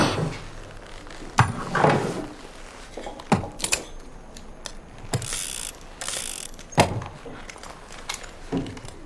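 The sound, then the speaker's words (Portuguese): Clicking and ratcheting of a revolver cylinder being spun, from guns laid out on a table: several sharp metallic clicks and brief rattling bursts, spaced irregularly over a low background, with no talking. “O gringo roda um revólver.”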